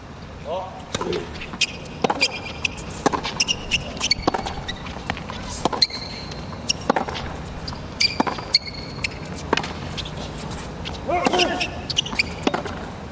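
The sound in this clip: A tennis ball bounces repeatedly as a player prepares a second serve from the ad court while facing break point, with sharp, regular thuds under a commentator's steady talking.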